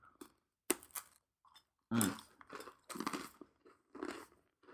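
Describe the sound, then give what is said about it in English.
Biting and chewing a thin, crispy sugar cookie: a sharp crunch of the bite is followed by several loud, crackly chewing bursts separated by short silent gaps, with no talk. “So let's just try the cookie.”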